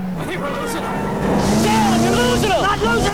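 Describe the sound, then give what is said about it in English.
A car engine roars and revs during a car chase, its pitch climbing as it accelerates. Voices talk over the engine noise. “John gets in the car beside Pappas and they roar off after the ex-presidents.”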